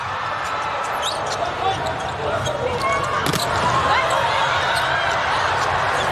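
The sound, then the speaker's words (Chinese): A volleyball serve by Vargas during a match involving Brazil's team: one sharp hit stands out midway over steady crowd noise, with a commentator talking throughout. “现在看看巴尔加斯的发球，厉害，”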